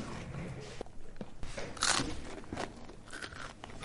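Someone bites into and eats an apple: crisp crunches and chewing noises, with one louder, bright crunch near the middle.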